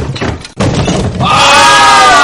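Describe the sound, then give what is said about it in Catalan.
A door bursts open with a heavy bang just after a brief pause, a loud low thud that gives way to sustained bright ringing tones for the rest of the moment. “I de l'ensurt, tots es tiren enrere i obren la porta d'una patacada.”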